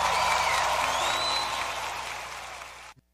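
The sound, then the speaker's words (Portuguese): Audience applauding during a worship program, a dense, steady wash of clapping that holds for nearly three seconds before cutting off abruptly. “Aplauda o Senhor pela vida da Liz.”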